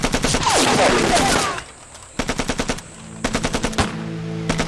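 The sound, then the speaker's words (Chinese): A Taisho Type 11 light machine gun fires a long, loud stream of rapid, sharp shots, then two shorter bursts after brief pauses. “什么三八大盖儿啊？这是大正十一式轻机枪”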